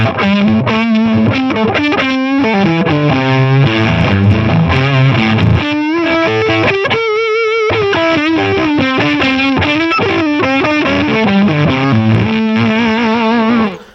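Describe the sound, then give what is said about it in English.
Distorted electric guitar played through a Basic Audio Scarab Deluxe distortion pedal set to a rough, harsh tone. Loud, dense, sustained notes and chords fill the passage almost without a break, with no voices. “the first pedal, I hit the interface, and then I hit this Basic Audio Scarab Deluxe. Oh, let's hear that.”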